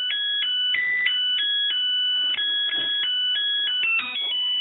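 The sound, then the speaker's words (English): Electronic melody from a Zojirushi rice cooker signalling the rice is ready, a bright, steady sequence of pure beeping tones that step between pitches, clear and continuous throughout. “That's the tune a Zojirushi rice cooker plays once the rice is ready.”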